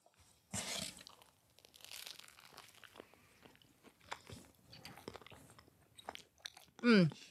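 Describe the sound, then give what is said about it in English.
Biting and chewing a slice of New York-style pizza: a loud crunchy bite near the start, followed by many softer chewing and crunching noises, then one brief louder sound at the end. “This pizza is looking pretty authentic. Let's give it a taste.”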